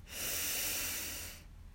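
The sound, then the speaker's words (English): A single deep breath, a soft, airy hiss that swells and then fades over about a second. It is quiet and alone, with no talk. “We begin by taking three deep breaths in and out.”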